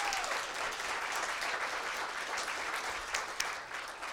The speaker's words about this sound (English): Give Bob a hand. Let's welcome him.